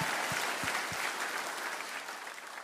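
Congregation clapping hands during a church service: a dense, steady patter of applause that runs the whole time, with a few low thumps near the start.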